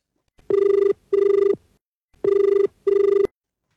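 An incoming call sets a telephone ringing in two double rings, four short electronic bursts in all. Each burst is a steady, buzzing mid-pitched tone, and they come in evenly spaced pairs with a longer pause between the pairs.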